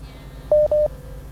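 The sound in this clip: Telephone keypad dialing tones sound while a call is reconnecting: two brief, evenly spaced, mid-pitched beeps of equal loudness, followed by a faint lingering tone over low background hum.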